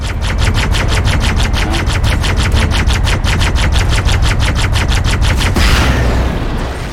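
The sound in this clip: Rapid automatic fire from a Banshee vehicle in a video game, a fast, evenly spaced stream of many loud shots over a low rumble that stops abruptly near the end.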